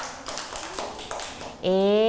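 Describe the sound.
Children in a classroom clap their hands in a few scattered, separate claps, then a voice speaks clearly over a quiet background.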